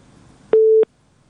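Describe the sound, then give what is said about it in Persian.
A single steady telephone busy-tone beep follows a disconnected call, a clean mid-pitched tone lasting about a third of a second against near silence. “متاسفانه که تماس شکریه جان فکر کنم قطع شده”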